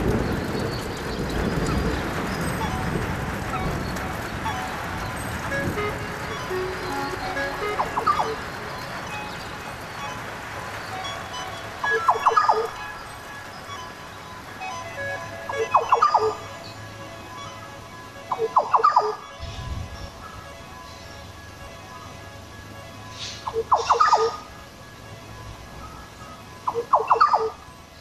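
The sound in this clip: Bird calls from the wet tropics, recorded at Mission Beach: short, sharp bursts repeat every few seconds over a quiet, hushed background.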